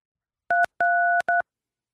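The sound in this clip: Three telephone keypad tones from pressing number buttons: a short beep, a longer held tone, then another short beep, all at the same clear two-note pitch, alone against silence.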